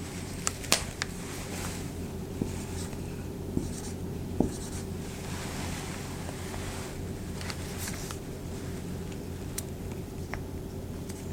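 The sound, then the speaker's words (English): A pen scratches steadily across paper while a calculation is written out, a continuous soft scraping punctuated by a few small taps of the pen tip. “Okay, so 0.3 times 1333 equals 399 projects. Write this in here.”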